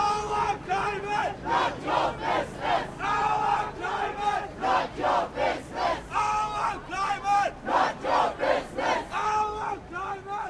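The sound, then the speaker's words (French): Protesters chant in a steady, pulsing rhythm at a demonstration to block port activities, after a gathering at Triangeln. The massed voices rise and fall in repeated loud beats, with no break for the whole stretch. “Et donc il y a un petit son qu'on a fait pendant la manif et qui résume un petit peu la situation à ce moment-là.”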